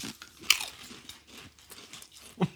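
Someone crunches barbecue-flavoured potato chips in a few brittle, crackling bites with softer chewing between them. The sharpest crunches come near the start and at the end.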